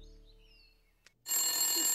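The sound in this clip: A telephone begins ringing after a second of near silence and a faint tick, breaking into a loud, bright, sustained tone with strong high harmonics that continues to the end.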